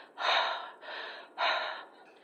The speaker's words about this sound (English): Breathe. Deep breaths.